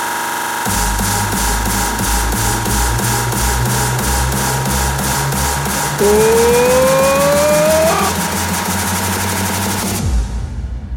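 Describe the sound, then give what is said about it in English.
Loud car engine revving at full throttle, a sustained harsh roar with a clearly rising pitch sweep in the middle stretch, cutting off abruptly near the end. “Het is nu tijd om vol gas te gaan.”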